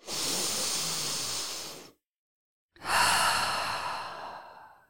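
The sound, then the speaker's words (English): A deep breath: two long, airy rushes of breath, one in and one out, separated by a brief silent pause, loud and alone without any speech. “Wherever you are, whoever you are, however you are, take a deep breath.”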